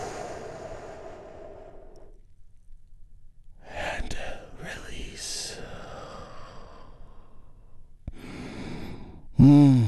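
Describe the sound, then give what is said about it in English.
A big, deep breath drawn in during a guided relaxation exercise, a long soft rush of airy noise standing alone between brief stretches of speech before and after. “we do that by taking a big, deep, healing breath all together. Here we go.”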